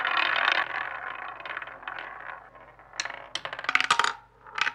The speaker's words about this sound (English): let's spin the wheel.